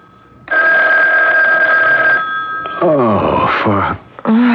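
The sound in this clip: A telephone rings early in the morning in a Park Avenue apartment in New York. One long, loud, steady ring is followed by drowsy groaning and moaning vocal sounds.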